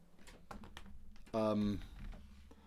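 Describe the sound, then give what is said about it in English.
A mobile phone goes off with a short, loud, buzzing harmonic tone lasting under half a second. Faint clicks and quiet talk come before and after it. “That's my phone. Cut that bit out.”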